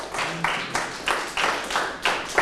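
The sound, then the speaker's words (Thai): Students in a classroom clap together for a classmate who answered correctly, a steady series of sharp, evenly spaced unison claps at moderate loudness. “ตอบถูกปรบมือให้เพื่อนเลยครับ”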